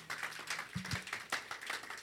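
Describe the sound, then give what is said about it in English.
Congregation clapping during a church service, a faint, steady run of claps in an even rhythm. “Clap for the Lord Jesus.”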